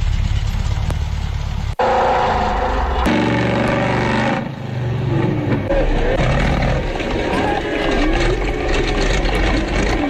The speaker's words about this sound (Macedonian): Monster Truck, знаеш, они огромните камиони со гигантски тркала.